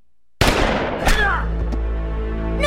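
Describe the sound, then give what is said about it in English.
Gunshot from a South Park cartoon scene: a sudden loud blast breaks the silence, then a second sharp burst follows, with ringing reverberation trailing off afterward. “And then they killed him, didn't they? Shot him in the chest?”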